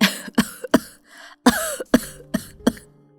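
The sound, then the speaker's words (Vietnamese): An old, frail, sick woman coughs repeatedly in seven harsh, raspy bursts with an uneven rhythm and short breathy gaps between them. No other voices are heard. “Tiếng gọi xen lẫn tiếng ho của bà”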